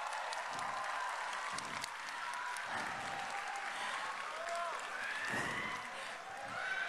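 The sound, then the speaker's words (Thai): Audience applause at a student award ceremony for a second-place prize: sustained, fairly quiet clapping from a crowd that continues steadily throughout. “ขอเสียงประมือเป็นดังๆให้กำลังใจกับน้องๆค่ะ”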